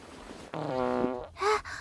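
A low, buzzy fart ripples out for nearly a second during a no-rules street wrestling match, loud against a quiet background.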